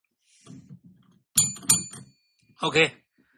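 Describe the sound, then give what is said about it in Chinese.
A small bell gives two quick, dull rings with a weak, not very crisp tone, and a voice follows briefly after. “OK,这铃铛确实不行啊，有点不是很脆啊。”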